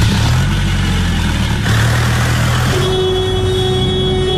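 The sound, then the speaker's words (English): A car engine accelerating fast, pushed hard by a driver in a hurry to reach the airport: a loud, continuous engine roar whose pitch shifts as it builds, with a steady tone emerging late on. “We just want to get to the airport. Come on, put your foot down. We're in a hurry.”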